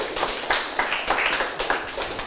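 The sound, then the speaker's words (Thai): Applause from a group praising a presenter after a group presentation, a dense, steady patter of many hands clapping at once, fairly loud throughout with no pauses. “เก่งมากเลยครับปรบมือให้เพื่อนหน่อยครับ”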